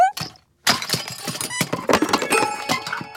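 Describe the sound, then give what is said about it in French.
Toys knocked over and tumbling down, a busy clatter of many knocks, clunks and clinks that breaks out after a short pause. “Mais qu'est-ce que c'est que ce bruit? Doudou, qu'est-ce que tu fais encore comme bêtise? Je crois que Toudou, mon doudou, a encore une fois fait tomber mes jouets.”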